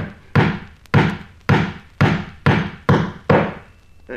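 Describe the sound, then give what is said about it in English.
Hammer blows from an amateur carpenter driving nails: heavy, evenly spaced thuds about every half second, each with a short ringing decay, loud and alone. “Excuse me should I most inadvertently hit the thumb now and then. I'm only an amateur carpenter. But even as I nail, I can see to shoot very well.”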